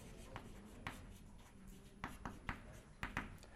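Handwriting during a maths lecture as a matrix is written out: faint scratchy strokes with a few sharper taps, in short, irregular bursts.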